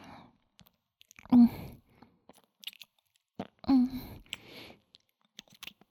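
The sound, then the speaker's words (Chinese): Bites into crunchy fried chicken: two loud, crisp crunches separated by quieter chewing and small clicking mouth noises. “炸鸡吧，真好吃。”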